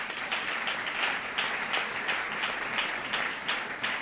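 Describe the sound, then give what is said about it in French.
A church audience applauds with steady, dense clapping that holds at an even level throughout, with no voices standing out. “Est-ce qu'on peut acclamer la parole du Seigneur?”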